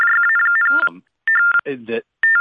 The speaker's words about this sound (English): What is that? I'm getting feedback. Oh, it's his phone.